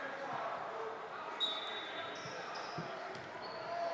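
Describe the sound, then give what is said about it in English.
A basketball is dribbled on a court during a high school game, a few hollow bounces under steady crowd noise and a talking voice. “with the dribble coming down with it”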